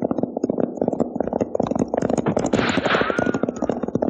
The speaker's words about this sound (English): There are some shots, the kind I was talking about. Now get your knee unhooked from that saddle horn and let's start making tracks. That sounds like a regular gun battle.